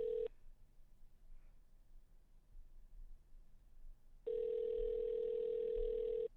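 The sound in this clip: A telephone line tone sounds as a call is patched through: a brief steady tone, a quiet gap, then a longer, flat, continuous tone lasting about two seconds before cutting off.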